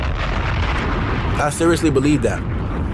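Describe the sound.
A bomb explosion sound effect played as a jokey reaction: a loud, sustained roaring rumble with crackling noise that runs through the whole moment and briefly swells midway.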